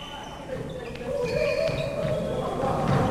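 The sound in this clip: Basketball bouncing: a few sharp, hollow thuds, spaced irregularly, over a steady low background hum.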